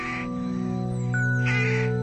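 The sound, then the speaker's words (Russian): Rooks cawing noisily as they settle to roost on a cold early-spring evening: two harsh caws over a steady, humming tonal drone. “и, укладываясь на ночлег, шумно кричат грачи.”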